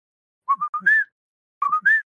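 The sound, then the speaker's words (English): A person whistles an imitation of a whippoorwill call in two short phrases, each a quick run of clear notes ending on a longer, higher note. The whistling is moderately loud and heard alone, with no talking. “their whippoorwill call is like, I don't know if I'll be able to whistle this properly or if it'll even like pick up”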